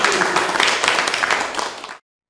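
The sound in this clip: Audience applause, a dense, steady patter of many hands clapping for about two seconds before it cuts off abruptly.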